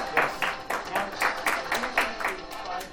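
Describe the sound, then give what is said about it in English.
A game show audience applauds a contestant's win. Many sharp, evenly spaced claps sound in a steady rhythm, moderately loud throughout. “Give a round of applause one more time.”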